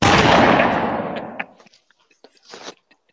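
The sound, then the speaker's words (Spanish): Gunshot from a revolver fired by a pastor during a church service: a loud, sharp blast with a long, gradually fading tail, then a few small clicks and a later, shorter burst. “¡Santo tiro! ¡Qué santo tiro! ¡Ay, Dios mío! Ahora, yo lo que no entiendo es... Porque un pastor tiene una pistola. Exacto, está dando un culto con un revólver.”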